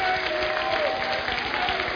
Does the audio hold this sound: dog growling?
no